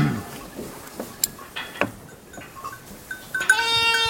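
Sheep bleat at a farm: several short wavering calls scattered over a steady rustling background, ending with a longer, louder bleat.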